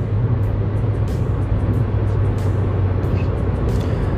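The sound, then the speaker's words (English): A car driving home on the road gives a steady, unbroken low rumble of engine and road noise that stays even throughout, with no talking. “So, here we are, me driving home.”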